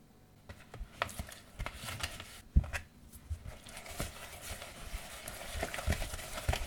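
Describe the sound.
Egg white being mixed in a bowl for peppermint drops as it thickens toward a froth, heard as faint, irregular tapping and scraping clicks repeating many times throughout.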